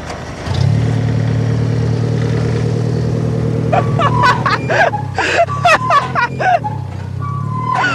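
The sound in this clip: A Jeep engine with spoon ignition catches on a jump start and settles into a loud, steady low rumble, with voices talking over it in the second half.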